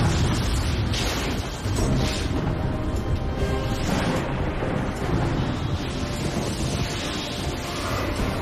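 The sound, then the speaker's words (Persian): A storm roars during air travel as a continuous, dense, rumbling wall of noise with wind-like rushing. It stays loud and even throughout with no clear breaks. “ما قراره بهترین چیز تو مسافرت هوایی رو تجربه کنیم. طوفان!”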